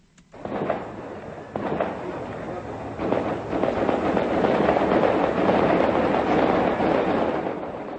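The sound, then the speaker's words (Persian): Gunfire at night in the hills around the old part of Kabul: a few sharp reports break out, then merge into a dense, continuous roaring rumble that grows louder and holds steady. “این صدای تیراندازی شب سه‌شنبه به چهارشنبه از قلب کابل از منطقه گذرگاه محل واقع در تپه‌های اطراف قسمت قدیمی پایتخت افغانستان بلند شد.”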